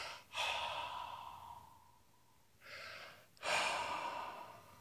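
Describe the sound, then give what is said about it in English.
Slow, deep breathing during a guided breathing exercise: three long, airy breaths, the first two separated by a quiet pause. Soft and unaccompanied by speech. “So just breathe very slowly. Take a big breath, and then.”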